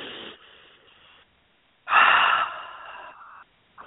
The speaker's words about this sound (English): A nice deep belly breath. Allow your abdomen to rise. Take another deep breath in.